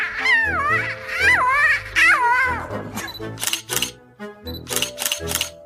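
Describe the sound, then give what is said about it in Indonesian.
Camera shutter clicks sound in short, sharp bursts, several in a row, after a stretch of expressive voice at the start. “Leon mengambil gambar dengan kameranya. Ia mengambil gambar matahari, pohon, dan...”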